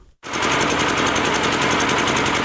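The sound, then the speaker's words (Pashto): An old electricity generator runs in Yaqubi bazaar, Sabari district, with a loud, steady, rapid chugging drone that starts abruptly after a brief moment of silence and continues unbroken. “دا د صبریو ولسوالۍ اړوند یعقوبی بازار کې د برښنا یو پخوانی جنراتور دی چې د لوړ غږ، تیلو لوړ مصرف او تریخ لوګي په پرتله د برښنا تولید په نشت حساب”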